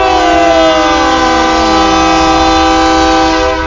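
A train whistle sounds as a loud, sustained chord of several steady tones, with one lower tone gliding slightly downward as it holds to the end.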